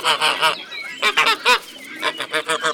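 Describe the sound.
Geese honk loudly and repeatedly in a farmyard, a rapid run of harsh, nasal calls in close succession with no pauses between them.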